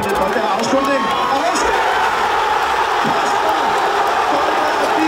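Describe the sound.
Football fans crowd together during Euro 2021, sitting out in the sunshine with draught beers among friends. A steady, loud murmur of overlapping chatter and scattered cheers fills the scene without a break.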